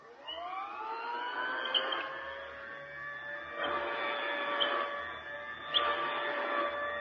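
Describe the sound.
An old-style vacuum sweeper passing back and forth over a rug gives a faint whining motor hum that climbs in pitch at the start and then holds. Softer swells of brushing noise come and go over it.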